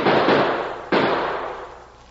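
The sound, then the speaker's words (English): Gunshots in a radio drama: two sharp, loud bangs a little under a second apart, each with a long, hissing tail that slowly fades away. “Maybe he's going for help. Or shoot him!”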